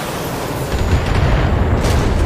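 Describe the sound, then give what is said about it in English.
Indirect artillery fire strikes a tank in a video game, producing a loud, deep rumbling boom that swells after a moment and keeps rolling to the end. “There's no other enemies, so we're going to fire at a tank with an indirect fire.”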